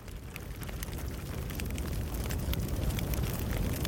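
Crackling fire: a faint, continuous bed of dense pops and snaps over a low rumble, with no voices.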